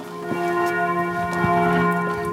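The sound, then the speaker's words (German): Church bells of a castle and pilgrimage church ringing at noon, a full, steady peal of overlapping strikes over a sustained humming ring, loud and continuous with no talk. “Die Glocken der Schloss- und Wallfahrtskirche Maria Himmelfahrt in Ludwigshafen-Oggersheim läuten um 12 Uhr.”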